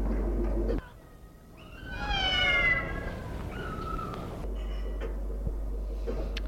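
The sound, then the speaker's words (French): A black cat meows: one drawn-out, clear, harmonic-rich meow followed by a shorter, quieter cry, over a steady low hum. “Elle se retourne et voit un chat noir.”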